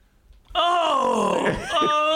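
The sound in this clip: A man groans and moans in one long, loud, drawn-out voiced sound that swells again near the end, with no words spoken.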